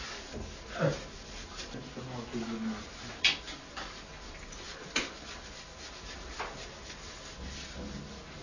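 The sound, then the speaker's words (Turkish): Wiping and rubbing of a surface with a cloth, a soft, uneven scrubbing texture with a few sharper scuffs, heard under people talking. “Hemen sil abi. Sen orayı silerken ben oradan başlayayım.”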